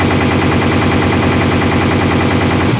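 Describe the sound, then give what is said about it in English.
Gunfire rings out during a safari hunt, a loud, dense, continuous burst of rapid shots filling the whole moment without a pause. “Okay. I'm aiming. And I'm firing.”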